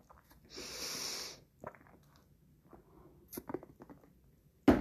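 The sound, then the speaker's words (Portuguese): Chewing of pão de queijo, Brazilian cheese bread: a soft breathy rush of air, then faint, irregular small wet clicks and crunches from the mouth. “Ah, tô comendo pão de queijo.”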